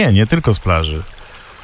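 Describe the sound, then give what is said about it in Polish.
Water pours and trickles in a soft, steady wash of noise for about half a second, right after a short spoken phrase. “Woda to jest dźwięk w naszej zabawie jeszcze w tym tygodniu.”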